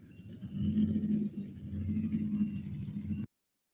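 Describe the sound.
A modified four-wheel drive Chevrolet truck engine on a pulling track gives a steady, deep rumble that holds and swells slightly before cutting off abruptly.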